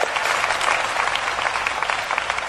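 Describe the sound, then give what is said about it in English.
A round of applause from an audience at a conference, given to an attendee. Dense, even clapping holds for the whole stretch, with small bursts of louder claps. “Let's give him a round of applause, too.”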